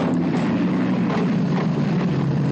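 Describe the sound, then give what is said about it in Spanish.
A steady roaring engine drone from an Allied bomber with a smoking engine landing at a World War II airbase in the Middle East, holding loud and even throughout with no voices. “bombardero aliado aterriza con un motor humeante. Al tomar tierra se rompe el tren de aterrizaje.”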